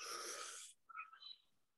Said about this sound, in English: I take a deep breath.